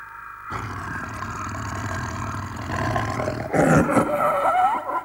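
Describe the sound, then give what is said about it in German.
A leopard roars while caught in a foothold trap: a rough, low, sustained growling roar that continues throughout and grows louder and harsher in its final second and a half. “Kein Elefant, es war ein Leopard. Er hatte sich in einer Fußangel verfangen.”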